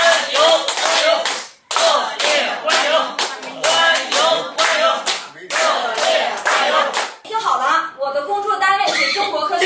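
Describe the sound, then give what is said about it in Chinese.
Warm, loud applause from an audience of older Beijing residents welcoming a research director onto the stage, sustained and dense with two brief dips, with voices mixed in toward the end. “一会儿马主任来的时候，我希望咱们叔叔阿姨以咱们老北京最热烈的掌声欢迎一下他，好不好，叔叔阿姨？ 好，马主任到了，来，”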